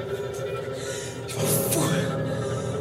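A person catching their breath, with one short, breathy gasp partway through over a steady tonal background.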